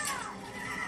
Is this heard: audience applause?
no